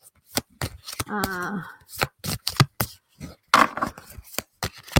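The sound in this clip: Playing cards shuffled for a card reading, heard as a run of sharp, irregular slaps and riffles, with a short voiced sound in the middle.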